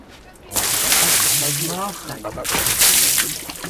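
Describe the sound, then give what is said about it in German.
Water is poured and sloshes over a fur hide being washed at a tannery, a broad splashing rush with a voice speaking through it. “ich brauche einen, der Wasser zugießt.”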